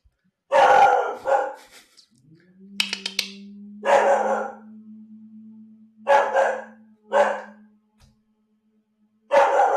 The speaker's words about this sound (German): Das ist der Hund.